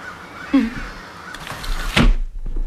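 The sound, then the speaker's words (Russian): Crows caw outside an open window: a few loud, harsh calls stand alone with no talk, and a brief dull thump comes near the end. “Послушайте, закройте, пожалуйста, окно. Они действуют мне на нервы. Кто? Вороны.”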